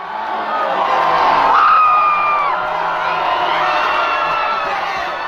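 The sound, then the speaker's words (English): Excited hockey fans cheer loudly in a bar as the University of Denver men's team wins its 10th NCAA championship, beating Boston College 2-0. The crowd noise is sustained, with whoops and screams rising above it. “That's the sound of excited hockey fans at the University of Denver as their men's hockey team won their 10th NCAA championship Saturday.”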